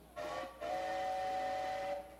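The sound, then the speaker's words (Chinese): A train whistle sounds as the train prepares to depart: a short, faint, high blast followed by a longer sustained tone of steady pitch over a soft hiss. “哎，火车又要开了啦！”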